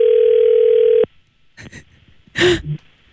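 Ringing tone of an outgoing telephone call: one loud, steady tone lasting about a second that cuts off abruptly, followed by soft breaths and a brief vocal sound.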